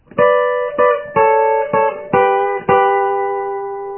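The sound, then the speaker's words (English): An E chord played on an instrument as six rhythmic strokes with ringing harmonic tones, the final stroke held and slowly fading. “this is the second one for an E chord. This one is going to sound like this.”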